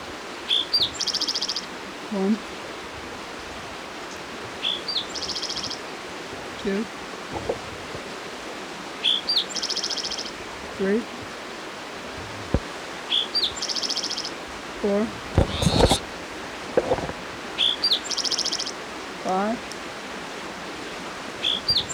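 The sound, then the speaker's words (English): A spotted towhee sings near Hendrys Creek. Short, buzzy song phrases repeat roughly every two to three seconds over a steady hiss of flowing creek water. “It's your spotted towhee number 5 for the Hendrys Creek area.”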